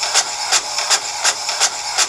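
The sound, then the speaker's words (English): A printer runs a print job with a regular mechanical rhythm. Whirring, buzzing bursts pulse about three times per second over a softer constant hum. “I don't even know what this machine is. Shooting out stuff like words on it. Your print job is complete.”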